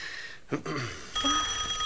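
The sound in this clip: A telephone rings with a steady, bright electronic trill that begins about halfway through and continues to the end, after a brief soft rustle.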